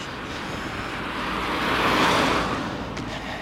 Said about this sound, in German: Ja, ein Auto nach dem anderen.